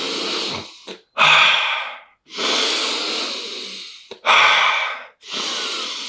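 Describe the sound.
Deep, forceful breaths in a rhythmic breathing exercise used as preparation for an ice bath. Five loud breath bursts alternate with short gaps, each a broad rushing airflow with no talk over it.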